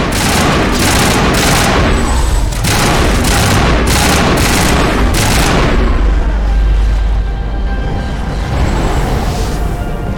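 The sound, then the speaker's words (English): Loud gunfire from a shootout in a video game: many rapid, sharp shots in quick succession for about five seconds, then a deep, rumbling low boom that fades out. “Okay, whoa. Guns away. Okay, we're shooting, I guess.”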